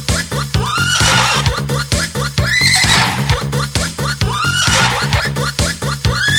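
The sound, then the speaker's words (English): A horse neighs a few times in high, shrill whinnies over a steady, pulsing dance beat from an 80s-style track, each whinny swelling loudly above the driving rhythm. “tocca adesso il cavallo, le horse”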